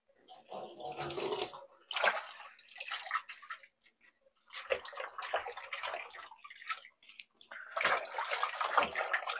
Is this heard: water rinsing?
yes

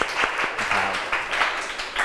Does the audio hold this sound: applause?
yes

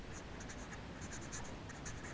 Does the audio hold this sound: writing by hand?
yes

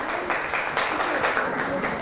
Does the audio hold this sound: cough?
no

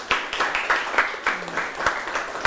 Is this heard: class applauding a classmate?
yes

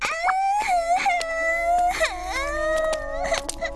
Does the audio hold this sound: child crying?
yes

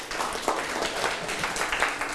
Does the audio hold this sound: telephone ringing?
no

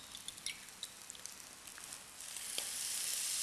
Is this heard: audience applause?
no

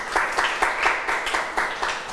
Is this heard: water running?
no

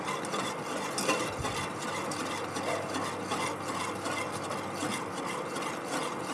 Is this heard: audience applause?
no

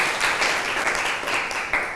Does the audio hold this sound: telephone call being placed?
no

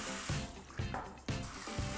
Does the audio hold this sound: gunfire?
no

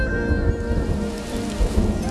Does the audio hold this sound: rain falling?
yes

